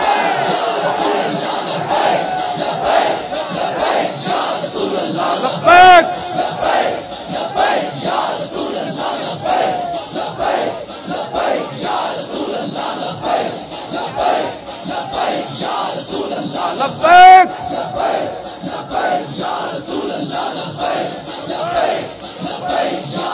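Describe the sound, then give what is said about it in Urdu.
A crowd of young men at a religious gathering chant slogans in unison, loud rhythmic bursts of massed shouting repeated over and over. “ایک لاکھ روپے لے کے بھی اینج نعرہ نہیں لا سکتا جہاں ساڈے منڈے حضور دی محبت وچ نعرہ لا رہے ہیں.”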